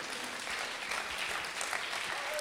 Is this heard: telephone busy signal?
no